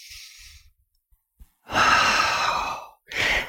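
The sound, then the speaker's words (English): A person demonstrates deep diaphragmatic breathing after a quiet pause: a long, loud, airy breath lasting over a second, followed by a shorter second breath. “take some deep diaphragmatic breaths. And this is, we all know this, and I'll show you the example I give you”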